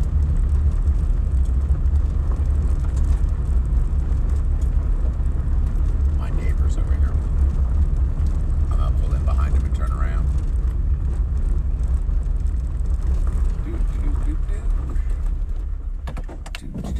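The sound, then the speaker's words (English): Steady, dense rumble of a vehicle driving slowly along the fence line of a cattle property, continuous throughout and easing slightly near the end. “Just driving the fence line to see if there's anything bad.”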